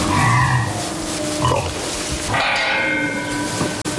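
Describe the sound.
Low, rough grunts from a woolly pig, a robust rare Hungarian breed kept on a village farm. A few short bursts come in the first half, followed by a stretch of broader, noisier sound.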